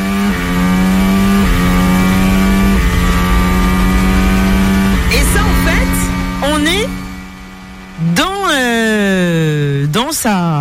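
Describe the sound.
A Formula One race car drives the Abu Dhabi Grand Prix circuit, its loud high-revving engine holding a steady whine before swinging sharply up and down in pitch through gear changes.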